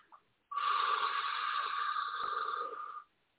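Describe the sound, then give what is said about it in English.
A single deep breath in during a guided sound-meditation exercise, one long, steady, breathy inhale of about two and a half seconds that starts and stops abruptly, heard alone without talk. “So we'll take our deep breath in.”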